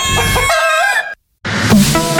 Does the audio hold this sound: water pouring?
no